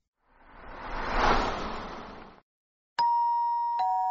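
A two-tone doorbell chime rings at an apartment door. A bright ding is followed by a second tone that rings on steadily, after a swell of soft rushing noise.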